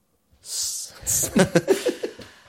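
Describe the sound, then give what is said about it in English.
A woman pants, out of breath: a long breathy inhale, then a quick run of short, rhythmic gasping exhales that weaken and fade. “She's out of breath, and she pants.”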